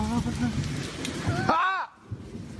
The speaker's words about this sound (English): It's raining, whoa, it's pouring